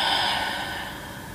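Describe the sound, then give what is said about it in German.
A deep breath, in through the nose and out through the mouth, as a single long, airy breath that starts strong and gradually softens as it fades. “Dann atme nochmal ganz tief ein durch die Nase und durch den Mund aus.”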